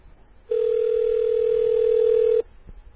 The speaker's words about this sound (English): we just dialed you over the air, dude, so everybody can bust out their DTMF decoders and get your number.